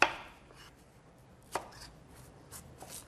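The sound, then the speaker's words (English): A knife chops a potato into big chunks. There are a few sharp, quiet chops: a strong first one, a second after a pause, then two lighter ones close together near the end. No one speaks. “We're going to need a potato. You want to cut it up into big chunks.”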